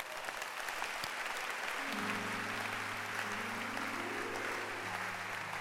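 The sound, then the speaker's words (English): Audience clapping its hands at a preacher's call during a sermon. Continuous, even applause, joined about midway by sustained low keyboard notes that hold beneath the clapping. “But can you clap your hands for Esther?”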